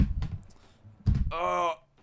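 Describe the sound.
Someone tries a locked house door, making dull thuds and rattles in two short bursts, followed by a drawn-out groaning voice.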